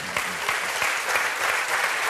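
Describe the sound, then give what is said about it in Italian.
An audience applauds with dense, even clapping that runs unbroken from start to end. The applause comes during a discussion of a documentary about Fiat leaders Agnelli and Marchionne. “Non so perché sia l'applauso, se per Agnelli o per Marchionne o per tutte e due”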